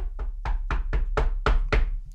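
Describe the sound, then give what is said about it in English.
Knocking on wood: a quick, evenly spaced series of sharp, loud knocks, each with a hollow low thud, played alone without talk. “knock on wood”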